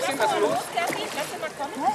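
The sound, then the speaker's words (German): Water splashes as Chippy is let off an inflatable boat into the water, a brief sloshing burst under encouraging voices talking over it. “Erst als das Boot die Co-Trainerin erreicht, darf Chippy ins Wasser. Ja, super! Jetzt lass mal los.”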